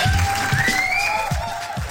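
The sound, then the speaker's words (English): Audience applause, a loud, dense and steady wash of clapping and crowd noise with thin high tones running through it, sustained for the whole moment. “Round of applause, round of applause.”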